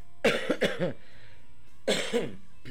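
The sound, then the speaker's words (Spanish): A person coughs in a radio studio, a rapid fit of several harsh, loud coughs, then a short pause and another burst of coughing, with no talk over them. “No puedo terminar de toser, ¿será posible?”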